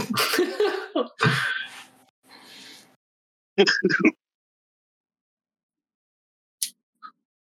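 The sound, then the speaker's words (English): Coughing from a sick person, a few harsh, separate bursts broken by silences, the later ones short and fainter. “I can't laugh anymore without coughing.”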